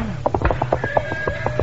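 A horse named Gunpowder is kicked into motion to cross a bridge. A steady, rapid clip-clop of hoofbeats rings out with a whinny-like tone over a low rumble.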